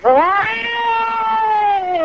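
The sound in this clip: A person imitates a cat meowing with one long, loud, drawn-out cry that swoops upward at the start and then slowly sags in pitch over about two seconds.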